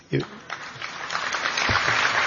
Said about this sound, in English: You're very kind, but you don't have to clap after everything.